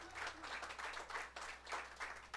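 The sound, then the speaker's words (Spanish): A church audience claps in praise to the Lord during a service, with faint, rhythmic bursts of hand clapping keeping an even beat. “Dele ese aplauso al Señor.”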